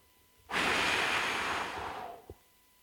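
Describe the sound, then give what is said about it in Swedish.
A deep breath blown out: a single long, breathy exhalation whooshes for nearly two seconds, gradually softening, and ends with a faint short thump. “Och så andas Gud igen.”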